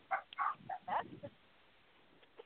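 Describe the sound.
Faint dog barking in the background, a quick run of several short, sharp barks within about a second, then quiet.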